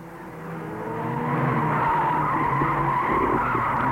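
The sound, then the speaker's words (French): A small red Renault R5 starts and pulls away from where it was parked. The engine note builds steadily over the first second or so, then holds at a loud, continuous roar with a faint squeal of tyres. “Il entre dans sa petite R5 rouge qui est garée devant la banque. Une chance. Avenue Foch n'est pas facile pour se garer. Et il démarre.”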